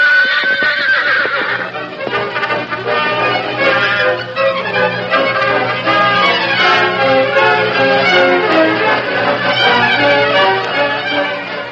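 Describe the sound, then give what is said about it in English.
Horses whinny and neigh loudly, again and again, as three horsemen rein up in an alleyway behind a hotel at nightfall, in a busy, layered stretch of high, shaky neighs. “Darkness had fallen over Reed City when the three horsemen reined up in the alleyway at the rear of the hotel.”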